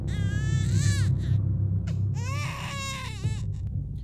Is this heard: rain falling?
no

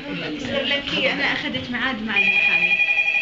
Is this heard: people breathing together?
no

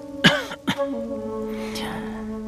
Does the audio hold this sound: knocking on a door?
no

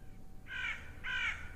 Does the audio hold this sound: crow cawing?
yes

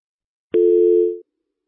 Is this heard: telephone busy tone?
yes

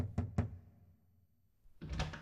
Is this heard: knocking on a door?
yes

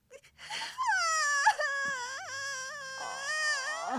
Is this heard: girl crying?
yes

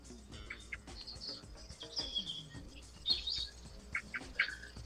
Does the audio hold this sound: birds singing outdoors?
yes

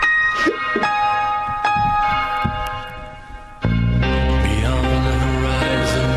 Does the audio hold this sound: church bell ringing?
yes

